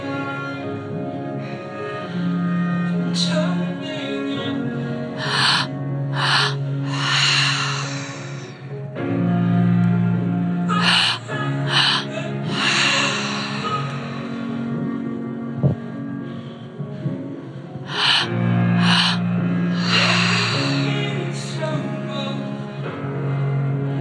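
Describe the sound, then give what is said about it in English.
Group breathwork breathing at a live breathwork and meditation session in a Lululemon store, with pairs of deep, breathy inhales and exhales recurring over sustained, droning musical tones. “It's okay if you feel any dizziness. You're safe. You're completely safe. Just let the breath do the work.”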